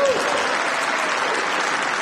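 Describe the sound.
Applause for the French minister after he announces a suspension procedure, a dense, sustained wash of clapping with voices faintly audible within it.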